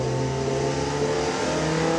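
An Inaltera car engine roars while driving, producing a loud, continuous mid-pitched drone with strong harmonic layers that holds steady with little change throughout.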